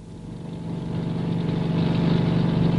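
A rescue helicopter takes off from Wick, its engine and rotors making a loud, steady droning hum that slowly builds in volume.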